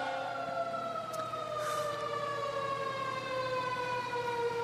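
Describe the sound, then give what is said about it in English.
A siren passes outside, its steady wailing tones sliding slowly downward in pitch over several seconds, faint and continuous, with no voices. “Let's wait for a moment and let that siren pass.”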